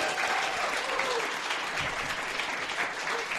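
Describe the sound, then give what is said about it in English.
A live audience at a radio show recording applauds a guest, a full, unbroken wash of clapping that stays even and steady from start to finish. “One more time, give it up for Wing Lam CEO Juan Cristanco.”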